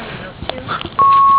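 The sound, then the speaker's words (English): Voicemail beep: a single steady electronic tone, loud and sustained for about half a second, following a brief stretch of faint background noise and murmur. “leave a message after the beep”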